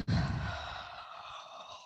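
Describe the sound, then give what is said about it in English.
A breath let out through the mouth during a yoga flow, starting with a short throaty onset and trailing into a long, airy whoosh that fades gradually. “Have a breath in. And let it go through your mouth.”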